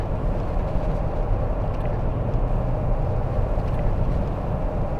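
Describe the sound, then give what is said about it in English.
A four-wheel drive vehicle grinds along a muddy forest track through burned woodland, giving a continuous, even engine and tyre rumble that stays steady and fairly loud from start to finish. “The road is basically little more than two mucky paths where tires have simply driven before. So Terry starts to get the four-wheel drive going. Okay, this is where it starts to get adventurous.”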